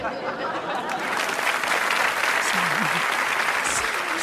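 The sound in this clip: Sustained applause from an audience, steady and loud across the whole stretch with dense clapping texture and no gaps, a faint vocal line rising briefly beneath it.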